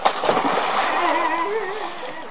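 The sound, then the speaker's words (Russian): A briefcase is thrown into a canal and splashes into the water. A loud, continuous rush of splashing and sloshing fills the whole moment without a pause. “Ой, мокро. Это вода. О, мы явно перестарались. Бедняга так испугался, что бросил портфель в канал.”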